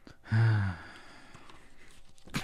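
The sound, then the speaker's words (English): A heavy breath exhaled into a microphone: one loud, rough, sigh-like breath near the start, then faint background noise and a short burst at the very end. “breathing heavily once again. Thank goodness we don't share a microphone”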